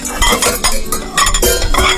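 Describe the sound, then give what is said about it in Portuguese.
Clattering of pots and plates being handled in a restaurant kitchen: continuous busy clinks and scrapes of dishes and cookware, fairly loud and uneven, with no talking. “ali do restaurante Bela Casa, tá lá já mexendo nas panelas, nos pratos”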